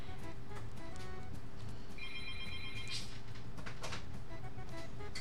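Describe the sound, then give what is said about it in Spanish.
A telephone signals a live call-in with a trilling electronic ring. One clear burst of rapid repeated tones sounds midway, over steady low background hum and noise, with no talk. “tenemos llamada en vivo. Vamos a ver quién es.”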